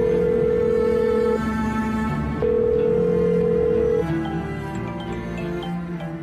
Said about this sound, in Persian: کنجکاو نیستی بدونی کی داره زنگ میزنه؟ جواب بده.